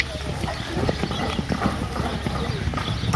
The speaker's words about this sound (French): Hop là, allez au galop. Encore un peu de galop accélération.